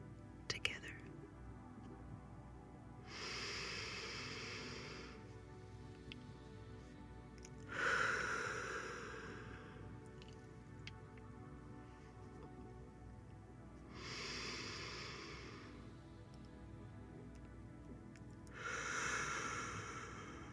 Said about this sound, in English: Continue to fill the body as we take 3 deep breaths.